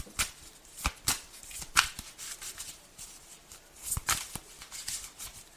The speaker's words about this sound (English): What's the fourth card? May I have the fourth card, please?